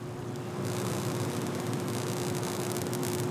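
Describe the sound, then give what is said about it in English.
Electrical hum of transmission lines outside a power plant, a steady buzzing hiss over a low tonal drone, growing slightly fuller after the first half second, with faint scattered crackles, continuous and alone. “So that is the sound of electricity. Ooh. Yeah, on some transmission lines and stuff outside this power plant I just visited to check out winterization.”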